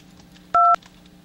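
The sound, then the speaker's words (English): A single touch-tone keypad beep on a PBX telephone line: one brief dual-tone burst of about a fifth of a second, standing out clearly over a faint low hum. “To reach Strom, dial 2. To play the Touchtone game, dial 3.”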